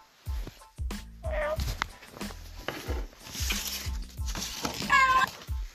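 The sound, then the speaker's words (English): A pet cat meows a few times, with short, tonal, mewing cries over a steady low thumping in the background. “Hey, that's my cat. Be quiet.”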